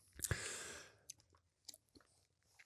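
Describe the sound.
Chewing while eating: a soft crunchy bite opens, followed by a few faint, irregular chewing clicks and smacks, quiet and alone with no talk.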